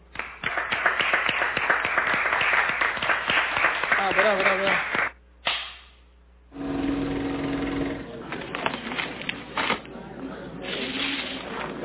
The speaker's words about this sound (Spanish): Desde Buenos Aires, Pura Vida TV los felicita por el esfuerzo y les envía este aplauso.